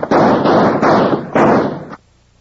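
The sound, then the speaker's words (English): Gunfire in a Wild Bill Hickok radio drama shootout in the half-dark, a loud, dense volley of shots blurring into a continuous roar for nearly two seconds before cutting off abruptly. “In the split second it took Mel Sutter to recognize Wild Bill Hickok and Jingles in the half-dark, Gadsden's guns began to bark.”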